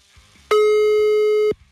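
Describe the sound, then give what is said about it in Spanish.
A steady telephone line tone sounds while a call is being placed. It is a single loud, even tone lasting about a second, with faint low background sounds before and after. “Cain, estoy marcándole.”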